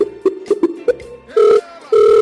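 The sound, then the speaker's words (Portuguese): A Skype call ringtone sounds from a computer: a run of short, bright melodic blips, then two longer sustained ringing tones. “Você pode ligar o teu Skype agora pra gente te ligar? Pelo Skype?”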